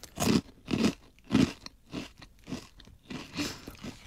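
Crunchy bites and chewing of a fried tonkatsu pork cutlet: a rhythmic series of crisp crackling crunches, loudest in the first few bites and softer toward the end.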